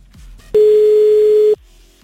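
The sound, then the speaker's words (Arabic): A phone call ringing with no answer: one loud, steady ring tone lasting about a second, with quieter line noise before and after it. “ردي يا تالا. طيب نرجع نتصل بعد شوي بتالا”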